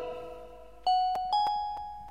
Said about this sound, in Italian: Hai suonato il campanello